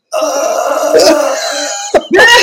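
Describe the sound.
A voice imitates a sleeping man's odd breath-holding noise: a strained, throaty groan is held tight, breaks into a brief catch, then bursts out again in a rough, loud release.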